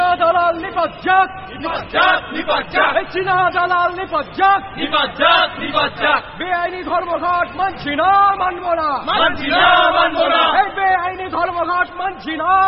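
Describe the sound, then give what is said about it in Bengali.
A crowd chanting slogans near Presidency College, many voices shouting phrases in loud, rhythmic bursts that repeat steadily throughout. “ঠিক এই সময় Presidency কলেজের দিকে slogan উঠল।”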